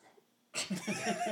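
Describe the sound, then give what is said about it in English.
A dog yawns: a faint, breathy exhale that opens abruptly and carries a brief squeaky, whining edge, lasting about a second. “Dog is yawning.”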